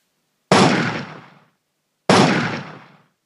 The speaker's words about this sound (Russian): Приложив палец к губам, коренастый боец через заднюю дверь вошел внутрь с гаусс-автоматом Э-9 наперевес. Спустя секунд 5 раздались 2 выстрела.